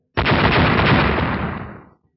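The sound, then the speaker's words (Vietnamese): An explosive blast from a fantasy battle scene where a fiery blade shatters flying swords. It comes as one loud, dense burst that holds for nearly two seconds and then fades quickly. No one speaks over it. “3 tiếng nổ giòn vang”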